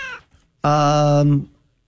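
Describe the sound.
A single long, loud cat meow, held steady and then trailing off, preceded by a brief snatch of voice.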